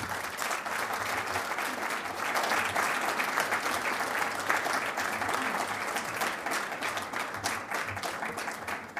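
Audience applause welcomes columnist Peggy Noonan to the stage at a Manhattan Institute evening event, a steady, dense wash of clapping that holds at an even level for the full nine seconds without a break.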